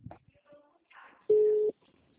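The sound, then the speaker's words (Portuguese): Ringing tone of an outgoing telephone call: a single short, steady mid-pitched beep with faint voices and small noises around it. “Tá ligando aqui.”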